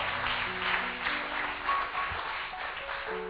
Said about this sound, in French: Acclame Dieu parce que tu es en mouvement.